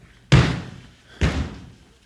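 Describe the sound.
Two heavy slamming blows against a door as pursuers try to break it down, each a loud, low thud with a short ringing decay, about a second apart and with no voices.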